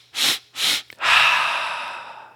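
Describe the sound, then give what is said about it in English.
Yoga breath-of-joy breathing: a few quick, sharp sniffing inhales in rapid succession, then one long, loud exhale that gradually trails away, with no talk. “Just three quick inhales and then a big exhale release.”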